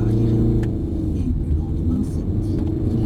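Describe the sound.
A car engine rumbles heavily and steadily as the car accelerates on a road during a driving lesson, with a dense, low, continuous roar throughout.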